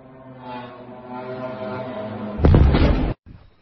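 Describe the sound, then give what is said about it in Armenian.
A loud, broad blast from an explosion during a Ukrainian drone attack on Voronezh, Russia. It follows a steady humming tone, bursts out about two-thirds of the way in, and cuts off abruptly. “Ահա պայթեց, ես կարողացա մի կերպ թաքնվել մեքենայի տակ, այրվում է բնակարան, պատուհանները պայթել են։”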